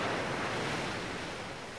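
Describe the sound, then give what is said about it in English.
Waves rushing in and draining away, heard as a continuous broad hissing roar of surf that holds steady and eases slightly toward the end. “As the light increases, you see the waters rush around you, rushing up and draining away.”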